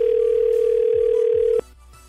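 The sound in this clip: A steady, unbroken telephone tone hums as a call is placed to a radio contest winner, then cuts off abruptly near the end and leaves a faint hiss.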